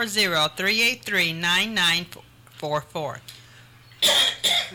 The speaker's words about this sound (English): Sorry, got choked there.